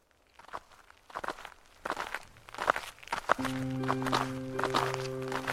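Footsteps of a group walking over, a run of irregular thudding steps that grows busier, with a steady tonal drone entering partway through.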